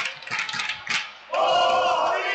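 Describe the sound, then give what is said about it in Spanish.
Boadilla supporters cheer at a basketball cup final played away in Torrelodones: a few loud shouted bursts from the crowd, then a sustained, dense roar that holds to the end. “Anima al público de Boadilla aquí, desplazado a Torre Lodones.”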